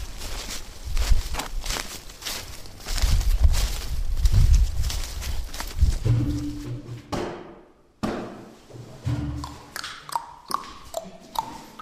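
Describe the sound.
Footsteps walking, a dense run of thudding steps at first, then a clearer and steady series of separate footfalls toward the end, with no talk over them.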